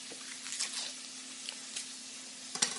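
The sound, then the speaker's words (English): Mushrooms fry in a pan with olive oil and butter, giving a faint, steady sizzle broken by scattered small crackles and pops. “So now I'm going to add the mushrooms to the pan with some olive oil and, of course, butter.”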